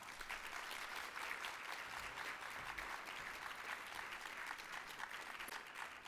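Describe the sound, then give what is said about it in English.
Steady, faint applause from an audience welcoming a presenter on stage at a history awards ceremony. The clapping holds evenly throughout with no voices over it. “here to present those awards is someone who I'd like to give a really big round of applause for”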